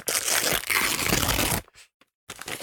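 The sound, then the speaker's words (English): A golden envelope being torn open: a loud, rough burst of ripping and crinkling paper, a short pause with a few small rustles, then the tearing noise resumes. “And so now we're going to open the golden envelope to find out what the nominations are for other people who picked fights they could not win. Hang on, just to open the envelope here.”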